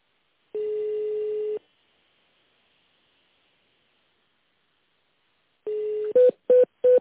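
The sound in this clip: Telephone keypad tones on a company's automated phone menu: a long steady tone, a pause, then another tone running straight into three short, even beeps, with no talking.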